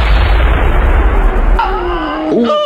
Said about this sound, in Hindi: अभी विक्रम लेफ्टिनेंट नवीन को घसीटते हुए बंकर की ओर ले ही जा रहे थे कि दुश्मन की एक गोली उनकी छाती में आ लगी।